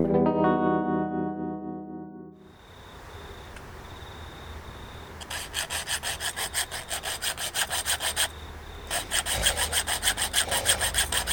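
A hand saw works through something in rapid, regular back-and-forth strokes, many of them, with a short break partway through. Sustained musical tones and a quieter pause come before the sawing starts.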